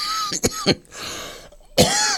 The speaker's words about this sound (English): You see, you don't normally get coughing live on the wireless.